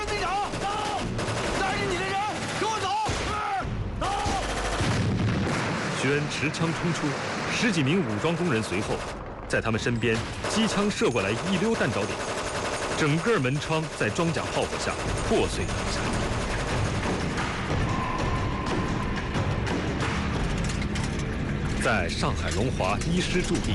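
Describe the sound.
Machine-gun fire rattles as armed workers charge out under armored fire that shatters doors and windows. Bursts of shots mix with mechanical clatter and dense noise throughout.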